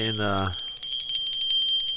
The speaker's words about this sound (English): Steve is getting the beer, and I've got my little Christmas bell here.